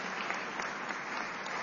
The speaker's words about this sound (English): A big round of applause for Callie. She's done such a remarkable job.